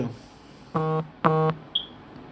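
A mobile phone going off with two sustained electronic beeps, followed by a brief high chirp, with no talk.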